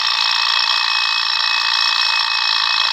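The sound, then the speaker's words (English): An alarm clock rings nonstop, a bright, dense metallic bell jangle held at an even, loud level throughout with no breaks. “The minute the alarm clock rang,”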